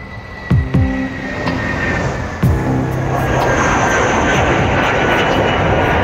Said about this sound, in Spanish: Joaquín Archibaldo Guzmán aterrizó en el aeropuerto MacArthur de Long Island, en el estado de Nueva York.